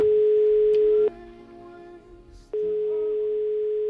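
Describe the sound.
A phone call rings out as a steady electronic ringback tone that breaks off for a pause and then resumes.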